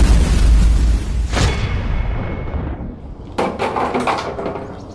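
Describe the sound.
Gunshot sound effects in an audio drama: two sharp bursts ring out over a loud, low rumble, the second followed by a crackling tail.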